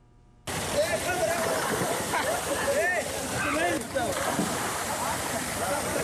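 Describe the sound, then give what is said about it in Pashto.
Water rushes and splashes as young people swim in a newly built pool beside a stream among trees near Khost. A dense, steady roar of water runs throughout, with voices audible over it. “دا خوست ښار ته نږدې د خوړ په غاړه د ونو په منځ کې تازه جوړ شوی حوض دی چې ځوانان پکې لامبو وهي.”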